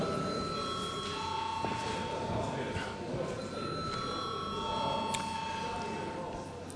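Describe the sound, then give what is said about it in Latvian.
An electric bell rings in a parliament chamber to call members to a vote. It gives a steady, continuous high-pitched ring that lasts the whole time over a low murmur of voices. “Paldies, lūdzu zvanu.”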